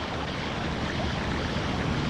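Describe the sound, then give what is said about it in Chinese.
Snow and ice meltwater flows as a stream across an ice sheet at summer midday, making a steady, even rushing wash of water with no voices. “夏季正午时分，当气温升到零度以上，冰雪融水便迅速汇流成河。”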